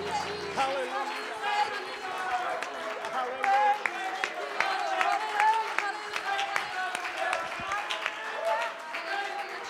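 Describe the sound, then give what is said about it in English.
An audience claps its hands during church worship, keeping a steady, repeated beat over sustained musical tones that carry on beneath the claps. “Come on, would you clap your hands to Jesus?”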